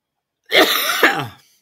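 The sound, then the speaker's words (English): A single harsh cough breaks out in two quick bursts, loud and alone against silence, then fades away. “Of course, I cough in the middle of this.”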